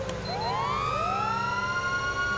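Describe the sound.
A police car siren sounds on a code 3 drive in a video game, its wailing tone sweeping upward in two overlapping rises and then holding high over a low engine hum.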